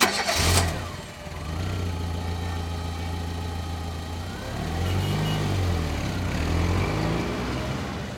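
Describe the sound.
A taxi engine cranks in a brief burst, catches and settles into a steady humming idle, then revs up and eases back down twice.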